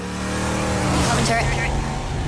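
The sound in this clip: A car drives by, its engine a broad, steady roar that swells and fills the whole short stretch without any clear break.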